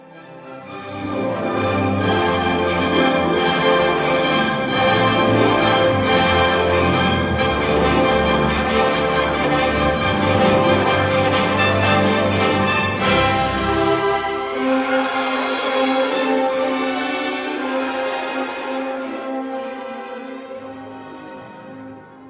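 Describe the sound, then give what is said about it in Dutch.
Orchestral music by the Italian composer Ottorino Respighi depicts a gushing, bubbling fountain of Rome. The full orchestra plays loudly with dense, shimmering activity, then thins out and quiets gradually toward the end. “Toch is deze muziek geschreven voor de concertzaal, dus ja, klassieke muziek, gecomponeerd door de Italiaanse componist Ottorino Respighi. Hij schreef een aantal stukken waarin hij heel natuurgetrouw de stad Rome in klank trachtte te vatten. Een van die werken gaat alleen maar over de fonteinen van deze oude stad en wat u net hoorde was een fikse, bruisende fontein.”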